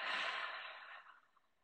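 A slow, deep breath is exhaled during a guided relaxation exercise, a soft airy rush that starts full and gradually fades away, heard alone without talk.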